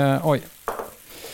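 A small splash of liquid hits a still-warm pan while an egg-yolk mixture is prepared, giving one sharp sizzling burst that fades away quickly.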